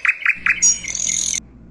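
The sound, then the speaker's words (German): Northern mockingbird song: three short, bright repeated chirps, then a higher, sustained whistled phrase that ends abruptly, over a faint low background. “Der Sensontle, auf Deutsch Spottdrossel, ist ein bezaubernder Vogel unseres Kontinents. Sein Gesang zeichnet sich durch die Vielfalt an Tönen und Melodien aus.”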